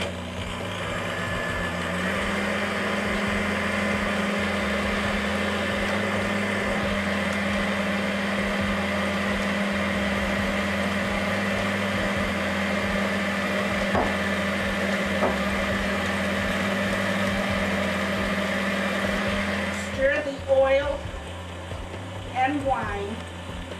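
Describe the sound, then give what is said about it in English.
An electric mixer beats eggs and sugar, its motor giving a steady, even whirring hum for about twenty seconds before it cuts off, followed by a few faint clatters. “And now we'll go over to the mixer and get started. Beat the eggs until thick, and then gradually add the sugar until lemon colored.”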